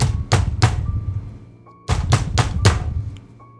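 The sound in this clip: Repeated knocking on a neighbor's house door, struck in two quick bursts, first three knocks and then four, each a sharp, solid thud with short gaps between them.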